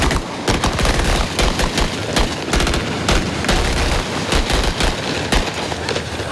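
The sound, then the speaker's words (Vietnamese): Gunfire during a military obstacle-course drill, with troops climbing 1 m and 2 m walls and shooting from various positions. Dense, rapid bursts of loud shots crack almost without pause, overlapping into a continuous fusillade. “Tiếp theo là nội dung vượt tường cao 1m, 2m kết hợp bắn súng dụng ở nhiều tư thế khác nhau.”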